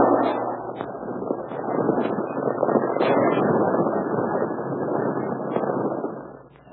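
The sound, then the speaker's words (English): Warning gunshot in a cave that knocks rocks loose, heard as a broad, roaring rumble that holds for several seconds before fading away. “That's a warning. Come out with your hands up. You shot loose in some rocks.”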